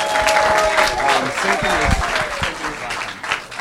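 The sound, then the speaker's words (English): A crowd gives loud, sustained applause as a team is welcomed onto a stage, the dense clapping mixed with a few raised voices and holding steady throughout. “Can you guys welcome my team to the stage?”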